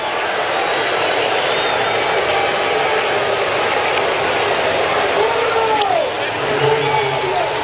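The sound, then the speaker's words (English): A large crowd of Red Sox fans at T-Mobile Park during a baseball game makes a steady, dense roar. It stays loud and unbroken, with a voice speaking over it. “You can probably hear them in the background. There's a lot of Red Sox fans here at T-Mobile Park tonight.”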